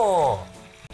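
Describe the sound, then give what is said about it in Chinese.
Water added to a stir-fry bursts into loud sizzling, which fades quickly within a second to a quieter hiss. “这样炒下去的， 连同水一起进来哦。”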